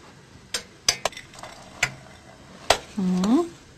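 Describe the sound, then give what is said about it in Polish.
Stirring a pot and adding raisins to a thick, cinnamon-spiced mixture: several sharp, irregularly spaced clinks of a utensil against the pot, followed by a short voice at the end. “Mieszamy, wrzucamy rodzynki.”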